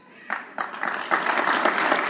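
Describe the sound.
Congregants applaud at a mosque, the clapping starting with a few scattered claps and quickly building into steady, dense applause from the crowd.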